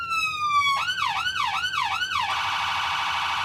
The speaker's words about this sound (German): Schalte die Signalanlage ein. Die Schallbox ist der Kasten vor der Motorhaube. Die lautesten Geräusche werden hier geschluckt. Und schalte einmal alle Signale durch.